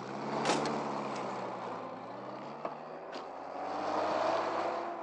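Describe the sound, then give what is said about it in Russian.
A car pulls away with a steady low engine drone, and a door shuts with a short thump partway through as the driver closes it while moving. Road noise swells again toward the end. “Водитель закрывает свою дверцу на ходу.”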